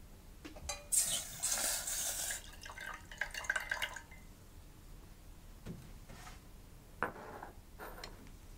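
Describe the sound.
Coconut milk boils in a pot on the stove with soft, irregular bubbling and ticking pops. A few denser bursts come early, and no one talks.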